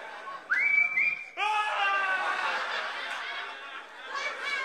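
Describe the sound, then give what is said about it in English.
A whistled tune from an Old Spice commercial plays loudly and alone, a bright melody of sustained notes that continues through to the end. “every time you hear that Old Spice whistling”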